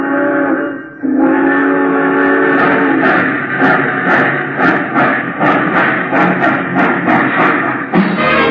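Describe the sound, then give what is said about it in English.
A passenger train bound for Chicago stands at a station. A steady whistle-like tone opens, then loud continuous hissing carries a regular run of many chuffing beats through the rest. “All passengers taking the chief to Chicago, please walk on tiptoes as you board the train.”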